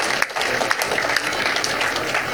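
Applause from an audience at an event celebrating sailing traditions: a dense, steady wash of clapping at moderate level with no distinct single claps standing out.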